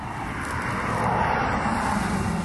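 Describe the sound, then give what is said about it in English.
An HSV W427 car drives past, its engine a broad, droning roar that swells gradually from the start and stays full to the end. “See, that was an HSV. Now, did that sound like an HSV? Well, it was one of the W427s.”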